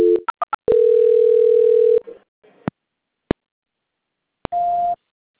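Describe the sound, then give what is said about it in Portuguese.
Telephone line tones during a call transfer: a few quick beeps, then one long steady tone, scattered clicks, and a shorter tone near the end. “A ligação vai ficar muda só por um instante, tá? Transferência.”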